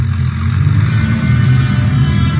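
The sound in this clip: Steady low engine rumble of a car trailing a taxi cab through downtown Los Angeles, loud and even throughout with no voices.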